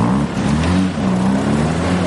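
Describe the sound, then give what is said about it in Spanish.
A taxi's engine runs as the car pulls away from a chalet. It gives a loud, steady low hum and drone with no breaks. “El vehículo arranca y se marchan del chalet.”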